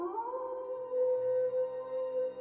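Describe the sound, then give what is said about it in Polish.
Wolves howl from afar around a village: a long, drawn-out, mid-pitched wail that lifts at the start and then holds steady, faint and with no voices. “Widzisz, jak wilki otaczają wioskę. Wyją z daleka.”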